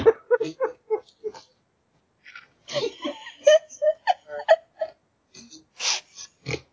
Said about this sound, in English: That was a snort. Who snorted?